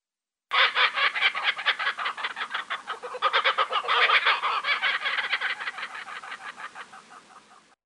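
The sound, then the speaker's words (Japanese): A bird calls in a long series of harsh, rapidly pulsed notes that sound like cackling. The calls keep a steady rhythm and are loud at first, then fade toward the end. No voices are heard. “あ、人の声が聞こえますよ。 誰も見えないけど。 あ、あそこに鳥がいますよ。あの鳥の声ですよ。”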